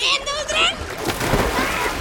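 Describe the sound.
Someone jumps into the sea with a loud splash, a broad rush of churning, sloshing water that follows brief vocal sounds at the start.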